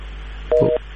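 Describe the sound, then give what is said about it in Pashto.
Telephone line tone as a call-in phone call disconnects: one short, steady two-note electronic beep over a constant low hum. “له دوی سره مو اړیکه پرې شوه”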